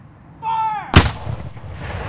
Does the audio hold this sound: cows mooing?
no

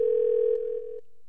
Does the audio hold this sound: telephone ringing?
yes

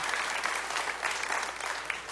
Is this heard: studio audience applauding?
yes

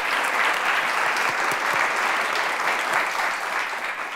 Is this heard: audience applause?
yes

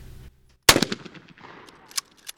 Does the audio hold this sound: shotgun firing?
yes

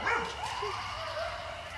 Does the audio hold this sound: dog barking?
yes

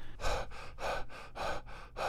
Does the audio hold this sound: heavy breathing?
yes

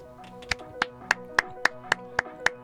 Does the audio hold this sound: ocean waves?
no

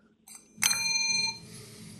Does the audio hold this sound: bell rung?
yes

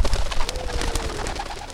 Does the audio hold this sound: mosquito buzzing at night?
no

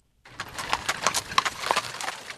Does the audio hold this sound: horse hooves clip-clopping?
yes

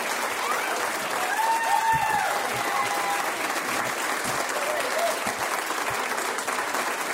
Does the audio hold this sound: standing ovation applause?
yes

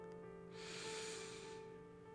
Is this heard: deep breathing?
yes

